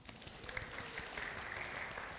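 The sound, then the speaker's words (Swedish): Audience applause as a volunteer grandfather is welcomed at a live family event. Many hands clap in a dense, steady stream throughout, with no talk over it. “Vi ger Bosse en applåd.”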